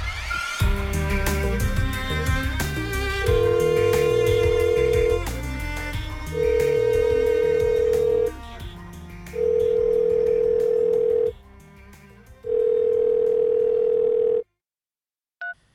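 Telephone ringback tone while placing a call: after a few seconds of brief clicks and noise, four steady, mid-pitched tone bursts of about two seconds each sound, separated by short silent gaps, with no talking.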